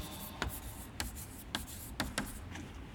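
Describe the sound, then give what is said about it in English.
Words are written down by hand, a faint, continuous scratching punctuated by five sharper strokes spaced across about three seconds, with no voice. “Let me write them down for you, lest we forget them.”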